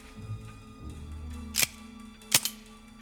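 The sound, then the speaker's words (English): Handling a handgun picked up from a marble-tiled house landing and checking its breech: faint low rustling, then a few sharp metallic clicks, the last two coming close together, over a quiet low hum. “he spots a handgun. Charlie! He steps towards it, picks up the gun, and checks the breech.”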